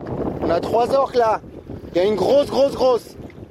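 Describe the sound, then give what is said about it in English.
Agitated voices of a sailing crew aboard a yacht off Gibraltar as orcas nudge and ram the vessel, heard as two bursts of tense talk over steady wind noise. “The sound of a nervous sailing crew in Gibraltar as five orcas nudge, ram and spin their yacht around.”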